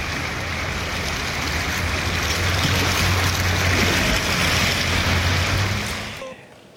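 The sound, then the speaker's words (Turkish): Floodwater rushing through flooded streets after heavy rain, strong enough to sweep cars away: a loud, steady roaring wash of water that holds for several seconds, then drops away abruptly at the end. “Yağışlar nedeniyle yollar, caddeler su altına gömülmüş durumda. İşte araçların sürüklendiği o anları ekranlara getiriyoruz.”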